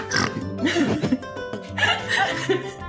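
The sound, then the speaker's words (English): A pig oinks in a few short, rising and falling grunts, mixed with people laughing and chuckling around it. “there's a pig somewhere. Make good bacon for tomorrow's breakfast.”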